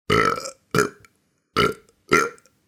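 Four deep, loud burps from a dragon, each about half a second long and separated by short silences, with raspy low rumbles and no talk around them.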